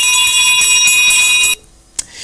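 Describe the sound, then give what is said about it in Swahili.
A ringing electronic bell sounds to signal a wrong answer in a quiz game. It holds a steady, shrill, loud tone for about a second and a half, cuts off abruptly, and is followed by a faint short click. “Kwa sababu sio sawa, basi na mimi ninakupa ile kengele ya kukuambia kwamba utatoa jaribu tena wakati mwingine.”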